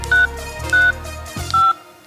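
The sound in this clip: Mobile phone keypad tones dialing a short code for an O2 music-identification service: three evenly spaced, clear two-tone beeps over a continuous low background.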